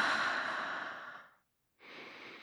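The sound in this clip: Deep breathing during a guided relaxation exercise: a long, soft, airy breath fades out, then after a short silent pause a second breath begins, both steady and breathy with no voices.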